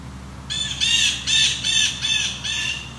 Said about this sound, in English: Blue jays? That's their typical jay call.